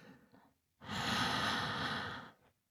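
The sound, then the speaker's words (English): A person breathes slowly: a faint soft inhale, then one long, steady, breathy exhale that rises abruptly, holds for about a second and a half, and fades out. “And exhale. Good job. Shh, it's okay. Just keep breathing slowly like that.”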